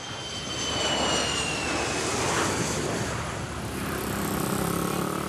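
Airplane landing in Jakarta: a loud, continuous engine roar that holds steady throughout, with a faint whine running through it.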